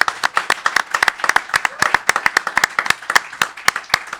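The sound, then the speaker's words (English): A studio audience at a live bookstore event applauds an author. Many sharp, distinct handclaps from a small crowd fall in an uneven, rapid patter without any talk. “Folks in the studio audience, please give it up once more for Michael P. Daly.”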